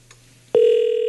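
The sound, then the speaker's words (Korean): Ringback tone of an outgoing landline call. After a brief quiet lead, a single steady mid-pitched tone begins abruptly about halfway through and holds evenly to the end. “지금 친구, 네, 친구에게 전화 갑니다.”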